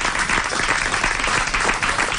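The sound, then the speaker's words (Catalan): An audience applauds at a Catalan human-tower (castells) event. Dense, continuous clapping from a crowd stays loud and even from start to finish. “Un aplaudiment, sisplau.”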